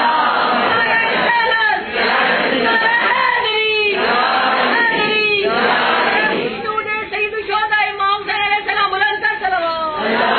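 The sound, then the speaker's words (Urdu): A crowd roars the takbir chant in unison, answering a religious speaker's call during a sermon. The many-voiced shout is loud and sustained, breaking into shorter rhythmic bursts in its second half. “نعرہ تکبیر”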